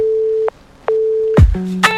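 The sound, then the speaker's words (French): An electronic answering machine jingle: a steady tone, a short break, the tone again, then a downward swoop into a few bright, layered beeps, with no voices. “C'était le jingle du répondeur.”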